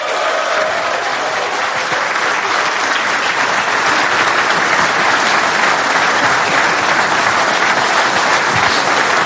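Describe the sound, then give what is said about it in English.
An audience applauds steadily as a former Irish football great is welcomed onto a stage. The dense, even clapping goes on for about nine seconds without any break. “please, let's welcome to the stage and give it up for the great John Giles.”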